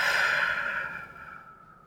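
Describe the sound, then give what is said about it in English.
A deep breath during a guided relaxation exercise: one long, airy, breathy exhale that is loud at first and slowly fades, with no talk over it. “Breathe in and breathe out.”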